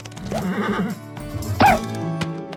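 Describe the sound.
A horse whinny, a vintage cartoon sound effect: a warbling vocal passage early on, then a loud, sharp whinny burst past the middle, with quieter sound before and after.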